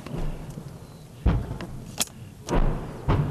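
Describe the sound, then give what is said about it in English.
Ukrainian artillery guns pound Russian positions on a front line during a counteroffensive. A few dull, heavy booms and thuds break through a constant rumbling background at irregular intervals, with no talk over them. “The air thickens with artillery and expectation. Ukrainian guns pound the Russian positions,”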